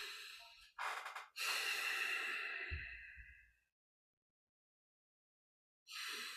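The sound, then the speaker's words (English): Deep human breathing: a short, breathy burst, then a long drawn-out breath that slowly fades to silence. After a quiet pause, another breath begins. “What am I going to do? I'm going to breathe.”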